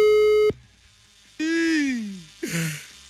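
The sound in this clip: A telephone line tone after dialing a number: one flat, steady tone holds for about half a second and then cuts off. Quiet follows, and then a falling, voice-like sound.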